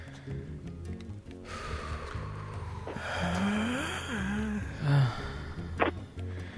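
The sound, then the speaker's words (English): A person breathes out deeply and draws breath in during a guided breathing exercise. The soft, airy breaths, with a sharper snort-like breath near the end, sit over quiet sustained background music. “let's all go ahead and first exhale and empty out all of the oxygen, the carbon dioxide, all of those noxious gases in our lungs.”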